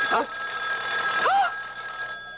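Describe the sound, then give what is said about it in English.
A telephone rings with a steady, bright electric trill that runs through the whole clip, with brief vocal sounds breaking in over it. “It's the phone.”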